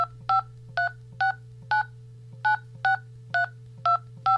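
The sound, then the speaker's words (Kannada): A phone number dialed on a telephone keypad: nine short, evenly spaced two-tone beeps sound in a brisk, regular rhythm over a low, steady hum. “ನಾನು ಶಾಲು phone ಹಚ್ತೀನಿ.”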